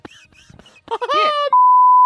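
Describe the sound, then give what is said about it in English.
A censor beep covers a swear word: a loud, steady, high-pitched pure tone cuts in right after a brief stretch of talk and holds unbroken to the end. “Can you please beep that out?”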